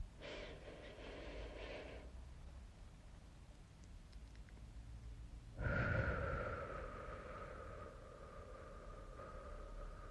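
Deep breaths in and out during a meditation: slow, airy inhales and exhales. Each long breath stands alone, with a soft breath near the start and a fuller, louder one later that fades gradually.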